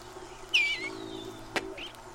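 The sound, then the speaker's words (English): A bluebird sings its cheerful warble from the roof of a birdhouse on a spring morning. Two short, high, faint chirping phrases sound over a low steady hum. “the first song that greets our ears is the cheerful warble of the bluebird. There it is, singing from the roof of the birdhouse”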